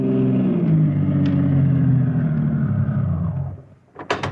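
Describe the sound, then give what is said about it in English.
A taxi cab drives and pulls up outside an all-night diner in a warehouse district. Its engine holds a steady low rumble, then dies away as the cab stops, with brief sharp noises right after. “Steve is on his way to the south side of Big Town in the cab of Harry the Heck and pulls up in front of an all-night diner in the warehouse district.”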